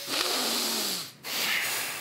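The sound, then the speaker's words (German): Breathing out through the nose during an exercise with the belly tensed: two breathy, hissing exhalations separated by a brief pause, fairly loud and alone. “Dann ausatmen. Genau, am besten mit der Nase.”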